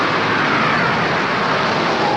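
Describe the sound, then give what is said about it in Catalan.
A car arrives and parks in the central square of Eindhoven, heard as a loud, steady rumbling roar of engine and road noise that stays even throughout. “finalment troba estacionament i aparca l'automòbil.”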